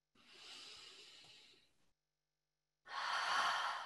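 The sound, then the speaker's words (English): A deep breath, heard alone: a long, soft, airy inhale fades out, then after about a second of silence comes a louder, fuller, hissing exhale. “So let's take another deep breath together.”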